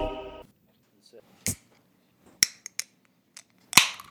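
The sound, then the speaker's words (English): A beer can cracks open in a few sharp metallic pops and clicks, scattered through quiet pauses after a short stretch of talk. “It always opens with a little bit of a beer. What do you call that? A beer crack?”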